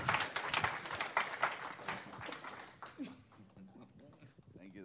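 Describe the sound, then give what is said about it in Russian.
Applause from an audience welcoming a speaker, dense and lively for the first few seconds, then thinning out and dying away, with a voice coming in as it fades; fairly quiet overall. “Хорошо, давайте аплодисментами поприветствуем Кори Рассел.”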